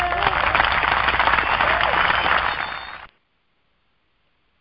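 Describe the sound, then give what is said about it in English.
Audience applause welcoming a talk show host, a dense, steady wash of clapping that holds for about three seconds, then cuts off abruptly into silence. “I want you to put your hands together and help me to welcome visionary Eudine Hubbard.”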